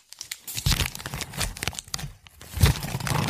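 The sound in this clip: Paper crinkling and tearing as a gift is unwrapped, a busy stretch of many dense rustles, crunches and rips with short pauses between bursts, fairly loud and without any talk.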